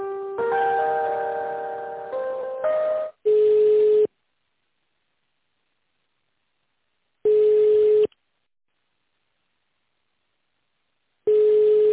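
Telephone line tones play while a business call is transferred to another extension. A short melodic chime sequence comes first, then three long ringing tones about four seconds apart with silence between them.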